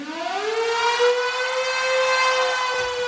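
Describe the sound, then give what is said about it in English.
Storm siren opening a live 1977 rock song, a loud wail that climbs quickly at the start and then holds one steady, harmonic-rich tone on its own. “Let's go with a song that opens with a storm siren”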